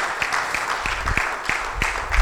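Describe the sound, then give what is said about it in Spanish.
A church audience applauding, with steady, rhythmic claps landing at a regular pace over a low background murmur. “Sí, vamos a darle un aplauso a Cristo.”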